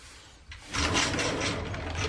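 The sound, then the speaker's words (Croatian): A wooden sliding door slides into its wall pocket, giving a steady rolling rumble with a soft rubbing texture that starts abruptly and runs for about a second and a half. “Napravljena su i dobra klizna vrata koja idu u zid, koja se ne vide.”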